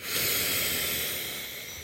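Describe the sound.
A deep breath released through the mouth during a calm meditation: a soft, airy hiss of exhaled air that swells at first, then fades gently over about two seconds.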